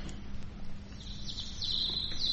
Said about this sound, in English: The sun is peeping through the trees and the birds are beginning to sing.